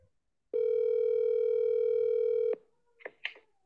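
A telephone ringback tone on an outgoing call: one steady, loud, sustained electronic tone of about two seconds, then a few brief faint sounds.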